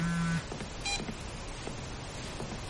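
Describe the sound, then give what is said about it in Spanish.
A mobile phone gives electronic alert beeps for an incoming call: a short toned chirp at the start, then a brief higher beep, over a faint steady hiss. “Observa en el móvil una llamada de Lance.”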